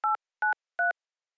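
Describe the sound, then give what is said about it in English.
Three short DTMF keypad tones, evenly spaced and clear against silence, as a password is entered into a wireless carrier's voicemail system. “Welcome to Rogers Wireless Voicemail. Please enter your password.”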